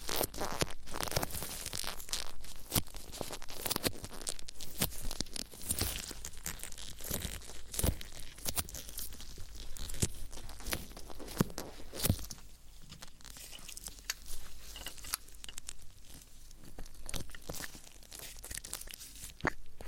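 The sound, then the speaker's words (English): Gloves rub over someone's ears, giving close, continuous crinkly rustling with crackling scrapes and small crunchy bursts, fairly quiet and steady throughout, without talk. “Now I will just feel over your ears. hear sound of my gloves.”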